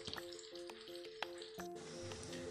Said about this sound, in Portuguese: Deixa eu dar uma mexida no ovo.